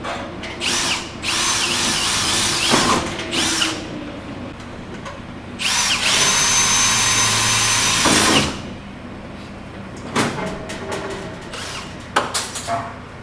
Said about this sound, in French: Le principe est de se rendre sur un chantier pour y enregistrer des sons, de capter tous ces bruits qui sont souvent considérés comme des nuisances.